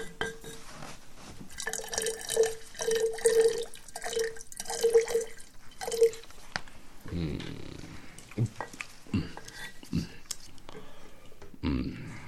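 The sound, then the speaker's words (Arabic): Milk poured by a servant into a cup, heard as a trickling, gurgling stream with repeated small drips and glassy splashes. Voices and rustling movement follow once the pouring stops. “صب لنا أيها الخادم من هذا اللبن لنشرب.”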